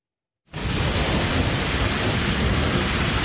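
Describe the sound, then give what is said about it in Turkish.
A heavy rain downpour during flooding in southeastern Anatolia: after a brief silence, a dense, loud roar of falling water starts abruptly and stays steady and unbroken. “Güneydoğu Anadolu bölgesinde etkili olan sağanak yağış hayatı olumsuz etkiledi.”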